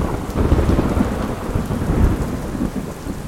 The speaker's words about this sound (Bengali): টানা ছ ঘন্টা বৃষ্টি হয়ে আকাশ থামল